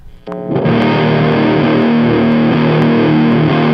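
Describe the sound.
An electric guitar played through a RAT distortion pedal strikes a chord after a quick picked attack, then rings out thick, gritty and saturated, holding loud and steady to the end.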